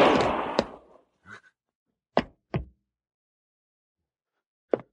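A pistol shot during a confrontation: one sharp blast that rings out and decays over about a second, followed by a few short, separate knocks and thumps spread through the following seconds.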